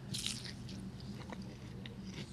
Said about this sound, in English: Actually, sorry, I'm eating tofu.